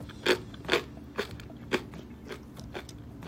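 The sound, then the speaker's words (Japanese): Crunchy biting and chewing of a Tanita Shokudo-supervised bar snack: several sharp, crisp crunches in an uneven rhythm, loudest early on and softer toward the end, with no talk over them. “回食べてみますね”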